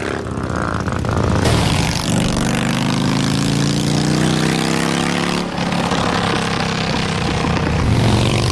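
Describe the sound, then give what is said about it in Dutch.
A motorcycle with an open exhaust pipe and its muffler removed roars loudly and steadily, a dense buzzing drone that runs the whole time without a break. “dat is het geluid van, hè, een motorrijder met een open pijp. Ja, open pijp. Ja, dat is nog weer iets anders. Dat is dempen eraf.”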